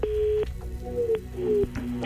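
An outgoing telephone call rings before anyone picks up. A steady mid-pitched tone sounds first, followed by a few more tones that drift slightly in pitch.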